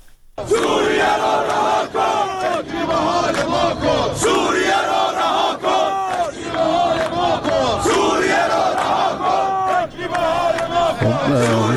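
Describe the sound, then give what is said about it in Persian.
Workers of the National Iranian Steel Industrial Group chant protest slogans in unison at a rally in Ahvaz during a long strike. Voices rise and fall together in loud, rhythmic group shouts that continue steadily throughout. “اونها در اعتراض به وضعیت خودشون از جمله شعار دادن که به یکی از شعارها گوش میکنیم.”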